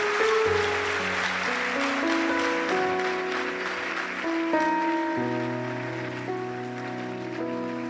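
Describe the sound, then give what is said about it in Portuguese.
A church audience applauds, a dense, steady wash of clapping that runs throughout beneath sustained keyboard chords that shift every second or so. “Palmas para o Senhor. Palmas para o Senhor.”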